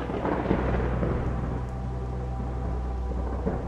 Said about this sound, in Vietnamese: Ở bên ngoài, trời bắt đầu có sấm chớp, kèm theo những hạt mưa bắt đầu rơi xuống, bắn tung tóe lên cửa sổ.